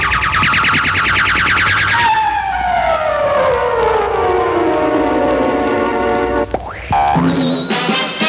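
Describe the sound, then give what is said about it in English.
KOMA radio station's Kissing Tone: a loud, buzzy, siren-like tone that swoops steadily downward in pitch over several seconds, followed by abrupt short tonal bursts near the end. “When you hear the Kissing Tone, if you're a loyal KOMA listener, kiss your sweetheart.”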